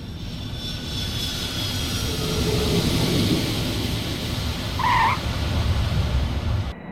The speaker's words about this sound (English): Now, give me 20 more degrees of flaps and gear down. 20 more flaps. Gear coming down.